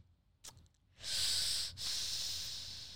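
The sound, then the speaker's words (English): A pained exhalation: a long, airy breath out lasting about two seconds, quiet and hissy, briefly broken by a short pause partway through. “The painful breath out.”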